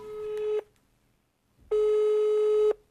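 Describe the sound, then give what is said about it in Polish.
A telephone call tone heard while dialing someone: two steady, mid-pitched electronic beeps, a short one and then a longer one, separated by a second of silence. “Próbuję znów zatelefonować do Patrycji. Przyznam, że zaczynam się niepokoić.”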